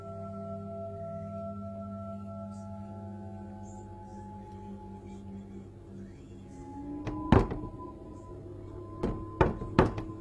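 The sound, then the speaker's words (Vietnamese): Knocking on a window at midnight: one sharp rap, then a quick cluster of several more raps near the end, heard over a sustained low, humming drone. “Lúc nửa đêm, có tiếng gõ vang lên từ đằng sau cánh cửa sổ, đối diện với buồng của hai vợ chồng.”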